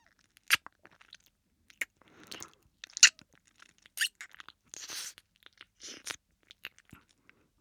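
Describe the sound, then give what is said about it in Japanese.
Wet mouth sounds of an ear being licked come as a series of quiet, irregular clicks, smacks and slurps with soft pauses between them. No speech is heard. “耳も全部なめなめしてあげるね。”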